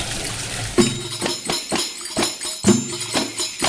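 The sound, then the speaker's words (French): Running water splashes over chickpeas being rinsed while cooking chorba, a steady, rough rushing hiss broken by a couple of louder splashing bursts. “Moi j'ai une habitude de les rincer, j'aime pas les laisser avec leur propre jus. Enfin, avec ça, je les rince bien.”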